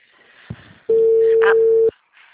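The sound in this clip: A single steady telephone ringback tone sounds for about one second while a call rings through, standing alone over faint background noise before and after.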